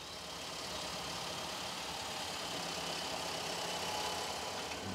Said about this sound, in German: So, der Drescher läuft und drischt den Hanf.